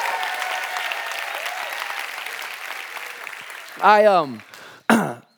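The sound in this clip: A church audience claps and cheers during an 11 a.m. service. A steady wash of applause and crowd noise slowly eases, then a voice breaks in with two short bursts of speech.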